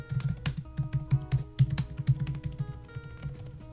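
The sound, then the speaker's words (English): Computer keyboard typing as a search is entered into Chrome: many quick, irregular keystroke clicks with brief pauses, crisp and fairly loud, with no talking. “Let me give a quick search. We're gonna type it into Chrome.”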